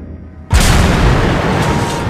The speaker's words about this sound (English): As the raiders come in range, Bush's big 5-inch guns open up,